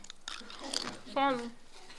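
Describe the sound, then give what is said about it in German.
Chewing and biting on a broken piece of food, with soft crunchy mouth sounds over a couple of seconds and a brief voiced sound partway through. “So, das oberste ist ein bisschen kaputt. Ich glaube, das muss ich mal essen.”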